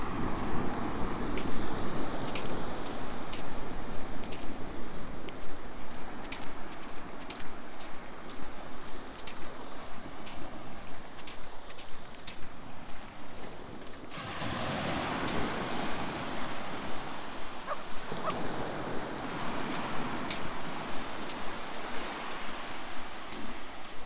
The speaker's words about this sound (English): tides out, so I can walk straight across onto Pendarrow Beach.